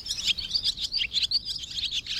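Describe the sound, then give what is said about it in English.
Barn swallow chattering: rapid, high-pitched twittering chirps run almost without pause, with many quick notes rising and falling in loudness throughout. “Maybe now the chatter of the barn swallow is a more pleasing sound.”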